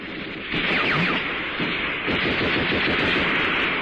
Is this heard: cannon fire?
yes